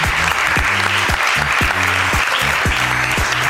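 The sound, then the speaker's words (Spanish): Audience applause welcoming a guest from Barcelona: dense, steady clapping throughout, with low rhythmic thumps pulsing underneath. “Un aplauso para Carlota.”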